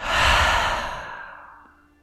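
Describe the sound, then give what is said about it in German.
A deep, slow breath let out through the mouth during a guided relaxation, one long airy exhale that starts loud and fades steadily over about two seconds. “dann nimm einen tiefen Atemzug durch deine Nase ein und atme mal ganz lösend durch deinen Mund aus.”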